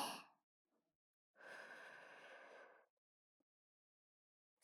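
A long, soft breath of air during a guided breathing exercise, lasting about a second and a half, with short breath sounds at the start and end and silence between.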